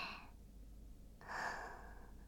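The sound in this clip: A slow, deep breath taken for calm: a faint, soft hiss of air in two stretches, with a short pause between them and nothing else heard.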